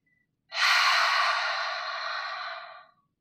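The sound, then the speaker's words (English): A person makes a single long, breathy open-mouthed exhale like fogging a mirror, a steady airy hiss lasting a couple of seconds and tapering off gently at the end. “make a sound like we're fogging a mirror. Parang ganito.”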